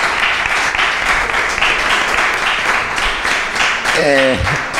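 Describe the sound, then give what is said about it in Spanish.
Audience applause at a rock festival event in Navia: dense, sustained clapping for about four seconds that is fairly loud, followed by a voice starting to speak at the end. “Así que yo pido otro aplauso para la Corporación Municipal de Navia por seguir apoyando al Unirock.”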